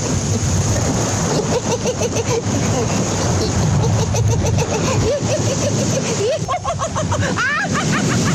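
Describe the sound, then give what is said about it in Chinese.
Sea waves surge and wash continuously in a dense, loud roar at a seaside scene, while bursts of wild, high laughter rise over the surf, growing clearer and more animated toward the end. “有海浪的声音，还有肆意的笑声，是悟空的”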